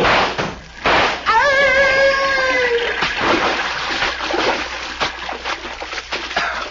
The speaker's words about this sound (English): we will jump down into the river.